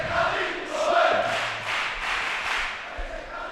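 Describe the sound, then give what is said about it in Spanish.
A stadium crowd cheers a goal at the Trofeo Carranza football tournament, a sustained, dense roar of many voices that stays loud and steady throughout. “Vamos a escuchar la celebración. Ensartan al campo ahí, a mover. Está ahí. Oh, al público como vibran Carranza.”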